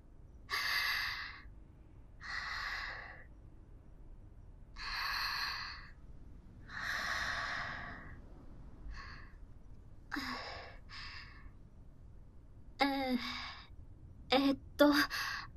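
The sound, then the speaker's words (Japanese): A few slow, deep breaths, soft airy inhales and exhales at an unhurried rhythm, fade into quieter, shorter breaths and small mouth sounds near the end, all faint and without speech. “ちょっと、深呼吸。”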